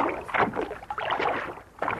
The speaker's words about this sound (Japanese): すぐに船に乗ってください漕ぎ出しますから